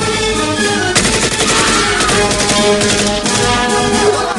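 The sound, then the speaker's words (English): Gunfire in a Rambo film battle scene: rapid, loud bursts of automatic fire and many sharp shots over sustained music, without pause. “Rambo leaps out of the hut and joins Ko, who fires on Tay. As the Russians and Tay's guards scramble, Ko shoots a turret gunner as Rambo fells a guard.”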